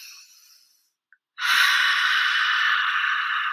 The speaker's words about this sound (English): you see how long that exhale was? You want to do more of that.